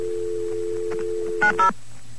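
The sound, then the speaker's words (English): A New York telephone line carries a steady dial tone, then two short DTMF keypad tones sound in quick succession and the dial tone cuts off. “Wait, I think I should dial the number first.”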